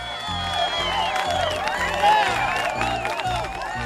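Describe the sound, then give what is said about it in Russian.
An audience gives a rousing ovation: loud cheering, whoops and clapping overlap in a continuous mass over a pulsing low beat. “Бурное одобрение и овации.”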